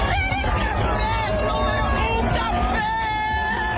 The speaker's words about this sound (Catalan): Això és l'emoció del públic ahir a l'estadi en veure com Cap Verd s'enduia el seu primer punt en un Mundial.